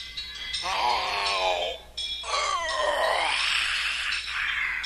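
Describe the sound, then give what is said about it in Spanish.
A voice imitates an ogre yawning: two long, drawn-out groaning yawns with a sliding, falling pitch, followed by a breathy, rasping tail. “Comenzó a caminar y a bostezar.”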